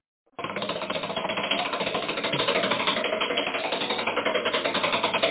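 A spinning prize wheel gives a dense, rapid run of ticking clicks that keeps a steady pace and level for about five seconds, with no voices over it.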